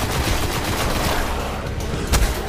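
Dense shotgun gunfire during a video game battle against enemies, a steady unbroken wash of overlapping blasts with one louder burst near the end.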